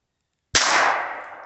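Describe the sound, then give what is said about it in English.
A single action pistol fires one shot at a splatter target: a sharp, loud crack after a brief silence, trailing into a long, slowly fading tail. “It's a single action pistol.”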